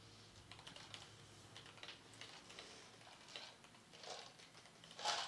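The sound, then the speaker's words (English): Typing on a computer keyboard as a question is entered into a GPT chatbot: rapid, soft key clicks in an uneven patter, fairly quiet, with a brief louder cluster at the very end and no voices. “Okay, so I typed, what's up with Skynet?”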